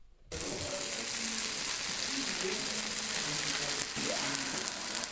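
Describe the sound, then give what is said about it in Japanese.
Marinated beef offal sizzles on an iron griddle in a special sauce, a loud, dense, continuous hiss and crackle that starts abruptly and holds steady throughout. “美味しそうな音ですね。ホルモン鉄板焼きやってまいりました。これね、特製ダレに漬け込んだ柔らかいホルモンということなんですけど、”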